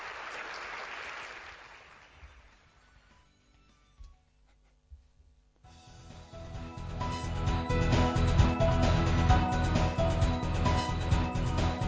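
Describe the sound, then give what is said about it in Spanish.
Studio applause closing a gaming show segment: a brief burst of clapping fades out, and after a quiet lull, loud music comes in. “Muy bien, oye, pues vamos a llegarle un aplauso, ¿eh?”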